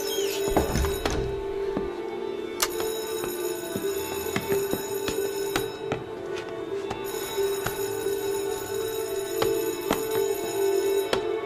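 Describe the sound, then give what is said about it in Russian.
A theatre's third bell rings to call the actors to the stage: a continuous electric ringing that holds steady and fairly faint for the whole clip. “Был третий звонок, артистов прошу подняться на сцену.”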